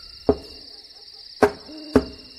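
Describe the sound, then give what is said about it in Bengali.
A hammer and screwdriver tap the corner of a coffin in a radio drama. Three sharp, resonant knocks come at uneven intervals over a steady, high-pitched drone. “এবার হাতুড়িয়া screwdriver হাতে নিয়ে কফিনের এক কোণে ঠোকা দিতেই Arthur হাঁ হাঁ করে উঠল।”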